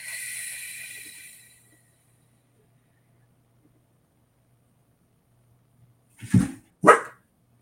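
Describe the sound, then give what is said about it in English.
A dog barks twice inside a house: two short, sharp barks in quick succession near the end, after a soft hiss that fades into a long stretch of quiet. “Here in our house, there's the barking, which you all get to hear too.”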